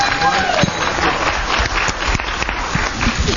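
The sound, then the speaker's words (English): Audience applause at a members' meeting fills the whole clip, loud dense clapping holding steady throughout with crowd voices mixed in. “Let's give them all a huge round of applause.”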